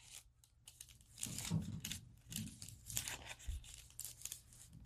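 Paper of a junk mail envelope being cut or torn, heard as a series of crisp, crackling rustles in short bursts with brief pauses between them, moderately loud and with no talking.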